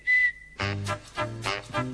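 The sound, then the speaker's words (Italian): A man's involuntary whistling: one short, steady high whistle tone, then a series of louder, lower, harmonic-rich tones in uneven bursts. “come vede sono affetto da questo grave difetto, questo fischio non m'abbandona e le donne ridono di me.”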